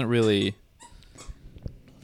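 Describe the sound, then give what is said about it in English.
A dog honks on a squeak toy, one loud, high, wavering squeal lasting about half a second, followed by faint clicks and rustles. “Sorry, my dog is honking on a squeak toy right now.”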